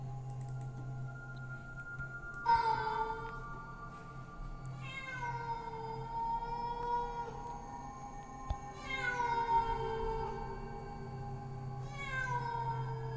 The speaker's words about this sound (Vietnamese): Điều kỳ lạ là những con mèo rừng lại bắt đầu loanh quanh đâu đây, kêu lên những tiếng thê thiết lắm.